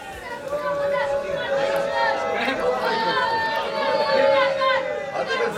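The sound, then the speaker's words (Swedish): Orthodox Israelis chanting at a large street protest in central Jerusalem, many voices merging into a loud, steady chant over continuous crowd noise. “Ja, det ni hör där är från en stor protestaktion som började i centrala Jerusalem för en liten stund sedan.”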